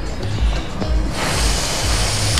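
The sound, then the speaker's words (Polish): A breath is blown steadily into a breathalyzer during a roadside police sobriety check. It is a rushing, breathy hiss that swells after about a second and holds to the end, over a low, rumbling hum. “Proszę nabrać dużo powietrza z odległości 2 cm. Proszę wdmuchnąć do urządzenia.”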